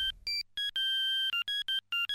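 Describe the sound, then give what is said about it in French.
A cordless phone rings with a custom ringtone based on a jazz film-score melody. About eight clean electronic tones sound alone in a quick pattern, with one long held note near the middle. “À peine ai-je libéré la ligne que mon sans-fil y va de sa sonnerie personnalisée.”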